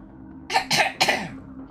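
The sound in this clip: A woman clears her throat in a few short, rasping bursts that rise abruptly and fade quickly, alone against a low, steady background hum.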